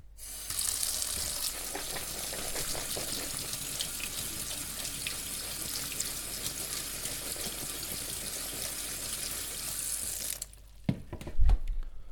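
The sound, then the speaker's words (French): Clear tap water runs steadily as food is rinsed in a colander. A strong, even gush lasts about ten seconds, then cuts off and is followed by a few soft handling knocks. “on les rince à l'eau claire.”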